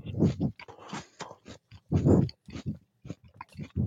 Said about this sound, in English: He's going for another bite.